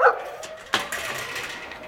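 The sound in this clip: Dogs running together in a parking lot give a high yip and then a sharp bark, followed by faint whimpering and restless noise, with no talk.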